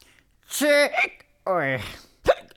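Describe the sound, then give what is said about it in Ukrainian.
Hiccups from a character in a children's audio story: two drawn-out, voiced hiccup sounds with gliding pitch, then one short, sharp hic. “На тебе напала гикавка.”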